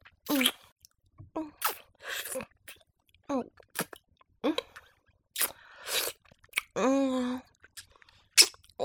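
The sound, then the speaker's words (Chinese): Crunchy chewing and biting of a frozen treat: a series of short, wet crunches and mouth noises with brief breathy pauses and a voiced murmur near the end. “你问我，吃的什么冷饮？问这个干什么？”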